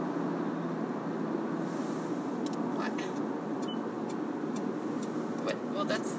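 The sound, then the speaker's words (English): Steady road rumble from inside a moving car, a low, even drone with a few faint, brief ticks above it. “I'm driving here. We're almost to work.”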